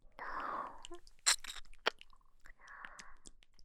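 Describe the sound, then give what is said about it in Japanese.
Wet tongue-licking mouth sounds with smacking clicks and soft crackling, crunchy bursts. A few sharp snaps stand out among quieter noisy stretches. “こうやって舌で舐め回すようにして、”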